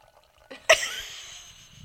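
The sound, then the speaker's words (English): Wine being poured: an abrupt splashing gush starts the flow, then eases into a soft, steady liquid rush that slowly fades. “You're putting the microphone up to you pouring?”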